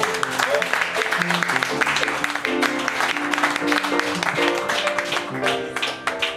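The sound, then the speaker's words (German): Audience applause as steady, dense clapping that carries on throughout, with tonal sounds running underneath. “applaus”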